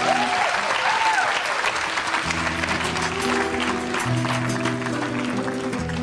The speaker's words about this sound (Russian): Под ваши аплодисменты.